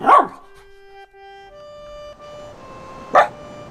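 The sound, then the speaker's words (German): A dog gives two short, sharp barks, one at the start and another near the end, with a faint sustained tonal drone between them. “Sie streichelt den Hund, der sich neben sie legt und ihren Schlaf bewacht. Was ist, Tuvabian? Was willst du? Du willst raus.”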